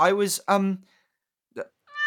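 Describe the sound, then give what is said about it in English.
A cat meows twice, two drawn-out, high, bright meows in quick succession, followed by a brief quieter sound and a short tonal note. “I was trying to catch Wiggy here. Here, kitty, kitty. Come to me, little Wiggy.”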